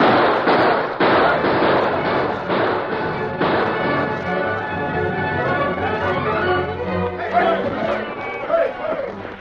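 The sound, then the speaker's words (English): Ambushers fire on a wagon train with many sharp gunshots cracking in quick succession over the first few seconds, then men shout amid the commotion. “Open up, boys! Fire on them!”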